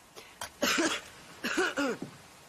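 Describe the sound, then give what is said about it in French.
A boy choking and coughing in Joffrey's poisoning death scene from Game of Thrones, with strained, rasping coughs and wheezing voiced gasps in a few bursts, their pitch gliding. “Il s'étrangle Aidez ce garçon”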